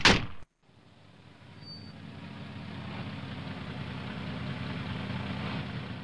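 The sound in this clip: A car engine idles after the car is stopped on a steep, hilly road. A sharp burst opens, then a brief gap, then a steady low rumble that slowly grows a little louder.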